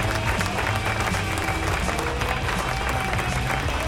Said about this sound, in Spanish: Así que aplauso.